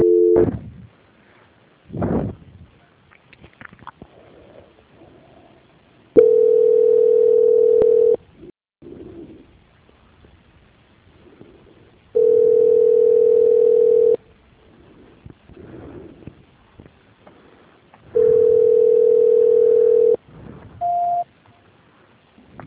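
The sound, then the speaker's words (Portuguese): A telephone call transfer tone sounds as a caller is put on hold and passed to quality control: three long, steady mid-pitched tones separated by quiet gaps, then a short, higher beep. “Peço que a senhora aguarde em linha e vou transferir o contato para o controle de qualidade que dará continuidade à sua contratação.”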